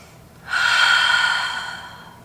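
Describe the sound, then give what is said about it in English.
A deep breath taken during a guided breathing exercise: one long airy rush that swells sharply and then fades slowly, heard alone without talk. “Breathe, breathe. Breathe through it.”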